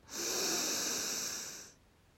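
A single slow inhale through the nose during a guided relaxation exercise, a soft steady hiss lasting about a second and a half before fading into quiet.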